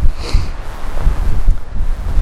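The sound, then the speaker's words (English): Strong wind buffets the microphone outdoors on muddy ground, a loud, gusting low rumble that swells and dips unevenly throughout, with no voices. “Oh man, the wind is just insane.”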